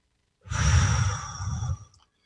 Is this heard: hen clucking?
no